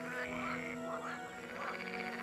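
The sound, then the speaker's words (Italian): Green frog croaking in mating season, a continuous, steady, pulsing croak with a buzzy, ringing tone at an even loudness, heard alone. “Eh sì, è una rana verde. Senti com'è gracida.”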